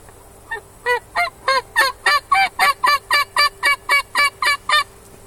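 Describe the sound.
Wild turkey hens and young jakes yelping near a food plot: a long run of loud, raspy, evenly spaced calls, starting with one faint note and then settling into a steady, regular rhythm.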